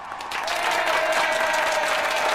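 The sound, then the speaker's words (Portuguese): Applause from an audience: a steady, dense patter of clapping that swells slightly after the start and then holds evenly, with no voices over it. “Então, palmas para vocês.”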